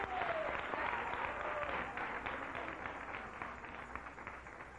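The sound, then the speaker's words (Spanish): A church audience clapping: faint, continuous applause with a dense patter that eases off slightly toward the end. “Dele un aplauso al Rey. Déselo con todo el corazón, que se escuche que aquí hay un pueblo que ha sido redimido con la sangre de Jesús.”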